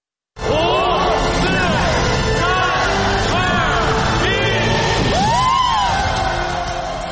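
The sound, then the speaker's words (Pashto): A crowd in Beijing shouts and cheers at a New Year celebration welcoming 2019, with loud, continuous yelling broken by many rising and falling whoops and calls. “دا تاسې په پیکینګ کې د خلکو نارې واورېدی چې د 2019 میلادي کال د جنوري د اولې نیټې د رابرېدو لپاره یې بیګه خوشحالي کوله.”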